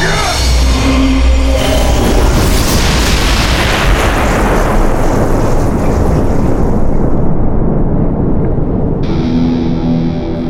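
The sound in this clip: A huge planet-destroyer weapon fires with a loud, sustained, distorted roar that fills the whole clip as one continuous blast, dense and rumbling throughout, with a faint tonal hum showing at the start and end.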